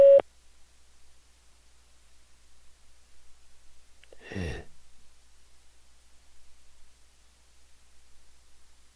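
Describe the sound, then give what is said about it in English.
A short, loud beep tone from a phone chat-line voicemail system marks the start of message recording. It is followed by near silence, with one soft breathy rustle midway. “please record your invitation for this caller to join you in a private conversation. Record after the tone.”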